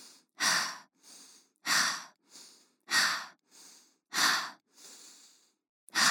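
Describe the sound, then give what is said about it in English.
Slow, deep breathing during a breathing exercise: four loud, airy breaths alternate with softer ones in a steady, unhurried rhythm, with no talk. “Will you do it with me? Breathe 5 times.”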